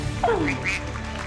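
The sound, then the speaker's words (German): A duck quacks a few times, first a longer nasal call that drops in pitch, then shorter, higher calls, heard over a steady background hum. “Ja, ich würde sagen, das ist eine Ente. Jawohl!”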